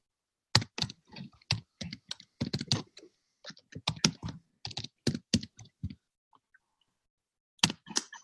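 Keystrokes on a computer keyboard as a chat message is typed, many crisp clicks in irregular bursts with short pauses, then a longer gap before a final few strokes.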